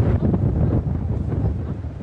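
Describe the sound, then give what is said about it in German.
Strong wind gusting across a sandy beach and blowing fine sand, heard as a steady, heavy low rumble of wind buffeting the microphone with no voices. “Der Wind ist noch stärker geworden. Der feinkörnige Sand wird über den Strand geweht”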